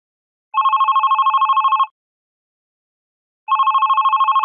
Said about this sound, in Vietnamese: Chuông điện thoại reo vang giữa lúc nửa đêm về sáng